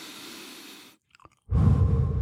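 Breath blown out through the mouth into the microphone during a deep-breathing exercise: a soft breathy hiss, a short near-silent pause with a few faint clicks, then a loud, rumbling burst of air on the mic.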